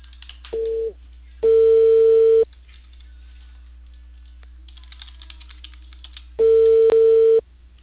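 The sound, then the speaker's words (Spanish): Ringback tones of an outgoing telephone call being placed: a short steady tone followed by two longer ones of about a second each, separated by quiet gaps, with no talking. “voy a llamar.”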